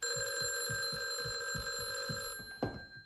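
A telephone bell rings faintly in a rapid pulsing rhythm over steady high tones. A sharp knock sounds near the end as the ringing stops.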